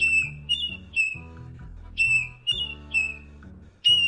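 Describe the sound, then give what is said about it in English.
A marbled murrelet, a forest-nesting seabird, calls with several high, piercing whistled notes in an irregular series. Each note is short and clear, sounding over faint low tones. “our featured feathered friend, a forest nesting seabird called the marbled murrelet.”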